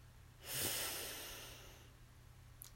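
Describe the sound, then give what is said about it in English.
A single long breath drawn in during a guided breathing exercise, a soft breathy hiss that swells quickly and then tapers off gradually over more than a second, with no speech over it. “So breathe in and out. Breathe in”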